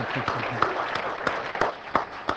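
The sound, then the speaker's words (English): A church audience clapping hands after a prayer, a dense, fairly faint patter of many claps with scattered louder hits. “I just want to clap again.”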